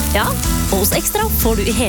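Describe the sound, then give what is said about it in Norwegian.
A big beefy burger sizzles on a grill, a continuous frying hiss that runs beneath a voice talking throughout. “Det er lyden av en grill.”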